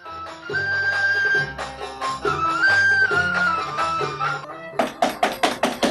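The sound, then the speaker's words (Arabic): Urgent knocking on a door in an Egyptian radio drama: a rapid run of loud, sharp raps cutting in at the end, right after a passage of music. “يا ساتر يا رب، مين اللي بيخبط على الباب بالشكل دي؟”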